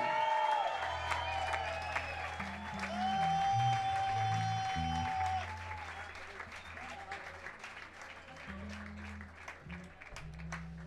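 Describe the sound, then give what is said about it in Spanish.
A concert crowd at Espacio 911 in Buenos Aires applauds, with occasional cheers over a low sustained bass tone. The clapping is dense and steady in the first half, then grows softer and sparser. “Un aplauso para vosotros, coño.”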